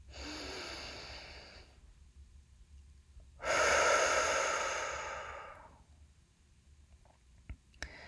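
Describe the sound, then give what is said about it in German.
Deep breaths in and out during a guided relaxation: two long, airy whooshes with no talk, the second louder and fuller and tapering off slowly, followed by a few faint clicks. “Und dann atme hier nochmal tief ein und aus.”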